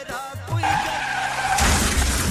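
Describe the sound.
A car crash sound effect for a taxi accident: squealing, skidding tires give way to a loud, sudden burst of shattering glass and crunching impact noise that carries to the end.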